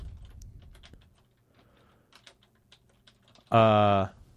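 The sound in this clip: Someone types a Google search on a computer keyboard: faint, scattered keystrokes tap irregularly for a few seconds before a brief, loud tonal sound cuts in at the end.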